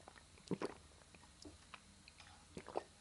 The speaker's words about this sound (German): Ich trinke mal kurz einen Schluck Kaffee, bevor er kalt wird.